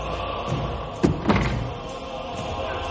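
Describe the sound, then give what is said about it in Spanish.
A door being opened onto the staircase leading up to a bell tower: two brief clunks close together in the middle, heard over a steady, continuous background wash. “Eddie abre la puerta y encuentra la escalera que lleva hasta el campanario”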